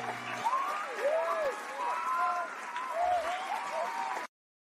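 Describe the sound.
Audience applause and cheering greet a show host, a dense, steady wash of clapping with voices mixed in for about four seconds before cutting to silence.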